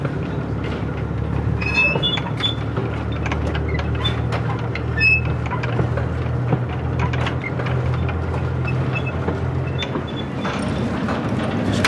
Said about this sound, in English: when the guards van connects to the other carriage, it's just a wonderful noise.